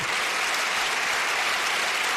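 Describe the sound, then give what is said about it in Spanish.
Loud, sustained applause from a crowd at a Spanish Socialist party rally presenting regional candidates in Fuenlabrada, Madrid. Dense, even clapping holds steady throughout. “Un gran aplauso para un equipo ganador.”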